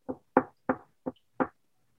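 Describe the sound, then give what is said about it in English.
Knocking on a bedroom door: five firm, evenly spaced knocks at a steady moderate pace, each short and clear, with silence between them and no voices. “someone's knocking at my bedroom door.”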